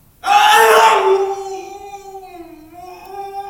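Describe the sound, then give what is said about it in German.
A restrained man screams: a loud, harsh burst that soon settles into a long, sustained wailing tone lasting about three seconds and wavering slightly in pitch, with no talk over it. “Und wenn er schreit, setzt man ihm die sogenannte Autenrietsche Maske auf. Da ist er kaum noch zu hören. Passen Sie auf.”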